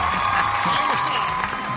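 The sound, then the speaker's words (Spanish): A theatre audience applauds in continuous crowd clapping, with voices and a bit of cheering mixed in over the steady wash. “Esos aplausos hay para Carlos Herrera.”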